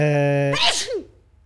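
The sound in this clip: A single loud sneeze bursts out after a drawn-out voiced intake, then quickly fades to quiet.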